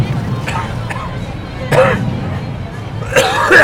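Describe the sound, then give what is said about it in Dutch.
Someone gives a few short, rough coughs at a Pride walk, with the two strongest toward the end, heard against a steady background of crowd chatter. “Oh, en plots moet ik weer hoesten.”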